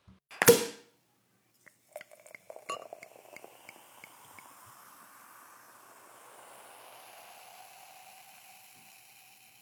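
A brut sparkling wine bottle is opened with a single sharp cork pop, followed by a short burst of splashy pouring into a glass and then a soft, steady fizzing hiss that lingers to the end.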